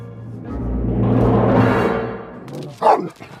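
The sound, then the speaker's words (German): A dog barks and vocalizes: a drawn-out, low, throaty sound that swells and fades, then a short, sharper yelp near the end. “Still! Hörst du nicht? Still! Still! Guter Hund.”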